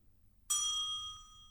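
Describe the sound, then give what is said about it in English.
A bell is rung once. After a moment of near silence comes a bright, high ding that keeps ringing with a steady metallic tone and fades only slightly. “Go and ring the bell, please,”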